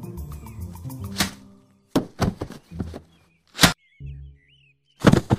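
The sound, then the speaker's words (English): Guards being clubbed with a laser gun swung as a bludgeon: a few heavy, blunt thuds and whacks in irregular bursts, with faint warbling electronic tones between the blows. “Nice job. I thought I'd have to club them both. The laser really wasn't intended to be used as a bludgeoning weapon. I think it is broken.”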